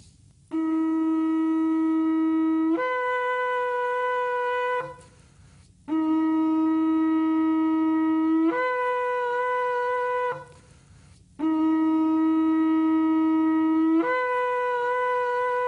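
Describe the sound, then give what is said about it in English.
Shofar sounding the tekiah, one long straight blast of the traditional Yom Teruah call. Three sustained horn tones come with short pauses between them, and each steps up in pitch partway through. They are loud and bright, with no voices. “This is one long straight blast called tekiah. This is the first blast of the traditional blowing of the shofar during Yom Teruah.”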